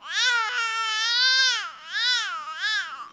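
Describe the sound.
An infant's cry that forms a single sustained, loud sound with four rising-and-falling melodic arcs in a row. It is heard alone, with no other voices.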